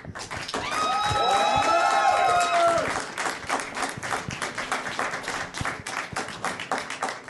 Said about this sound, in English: So by round of applause, the Ray Kylo scene.